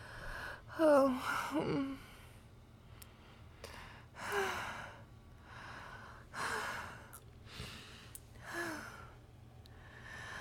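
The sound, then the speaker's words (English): Heavy panting from a person: a series of breathy gasps and sighs with a few voiced, higher catches, arriving in irregular bursts with no words spoken. “I don't even breathe, and how am I panting?”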